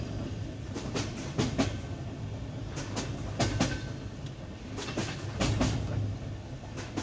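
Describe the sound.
A train runs on rails at night along a route with curves and tunnels. Its wheels make a steady rumble, broken by a few bursts of sharp, rapid clickety-clack beats. No voices are heard.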